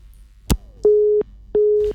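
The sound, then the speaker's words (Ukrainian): A dropped telephone call followed by a busy signal: a sharp click, then two steady, mid-pitched electronic tones of equal length with a short gap between them. “На жаль, зірвався телефонний дзвінок.”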